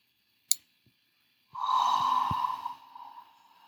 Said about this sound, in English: So we're going to take our first breath, a deep inhale.